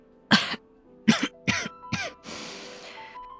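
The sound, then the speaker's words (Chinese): A person gives a short series of light coughs and throat clearing in a domestic drama scene. The sounds come as several brief, soft bursts, with no talk. “又轻咳了一声”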